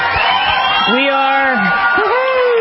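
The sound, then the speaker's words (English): Sports fans cheering in the seats, with loud whoops and drawn-out shouts rising above a busy crowd roar. Several voices yell over one another in overlapping bursts. “That applause is for all of you, the sports fans who are back in the seats”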